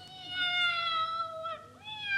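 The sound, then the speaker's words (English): A tomcat meows in a drawn-out, wavering cry that dips in pitch, then gives a second shorter call, fairly faint. “It's that rustling in your granddad's bushes. It'll be that tomcat from next door but one.”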